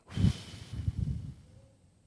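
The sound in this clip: A deep breath blown out through the mouth during a healing prayer. It is a breathy, low rushing exhale with a couple of surges, and it trails off quietly.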